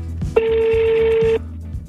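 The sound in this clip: A telephone rings on the line while someone is being called. It is one steady, even ringback tone about a second long, with a low rumble underneath.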